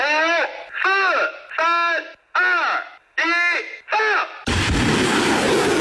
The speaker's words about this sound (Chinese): 发射指令下达，火箭弹呼啸出膛，直扑百公里外的海上靶区